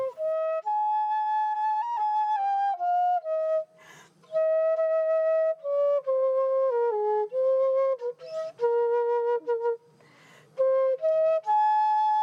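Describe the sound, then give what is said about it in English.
Flute played aboard the International Space Station on St. Patrick's Day: a solo melody of pure, sustained notes stepping up and down, with brief pauses and soft breaths between phrases. “That's the sound of former NASA astronaut Katie Coleman playing a flute aboard the International Space Station on St. Patrick's Day in 2011.”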